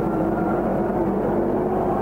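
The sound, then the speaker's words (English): A race car's engine roars steadily as it drives past in a race, a loud, continuous low drone with no break and no voices. “There goes car 29, Zering.”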